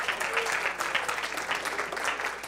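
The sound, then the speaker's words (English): Applause from an audience at a church service, a dense, steady clatter of many clapping hands that holds even throughout without a clear peak. “Give them a hand.”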